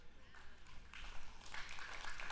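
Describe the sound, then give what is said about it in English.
Sparse, polite golf clap from an audience during a sermon: a soft, thin patter of light claps, faint and short, with no cheering. “Thank you for the golf clap. I feel like I just hit a great 9-iron.”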